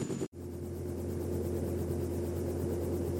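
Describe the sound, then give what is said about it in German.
Helicopter engine droning as it flies close to a space capsule descending under a parachute in freezing cold. A steady, loud, low hum with a constant tone runs throughout, broken by one brief dropout near the start. “Der Helikopter fliegt nah an sie heran.”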